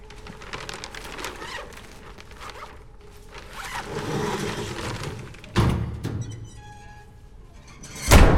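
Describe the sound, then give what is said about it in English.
A zipper runs along a body bag being closed in a morgue, a long scratchy rasp, followed by heavier dull thuds as the corpse drawer is pushed shut. “She closes the body bag and pushes the corpse back into the drawer.”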